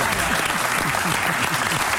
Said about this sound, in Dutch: Applaus.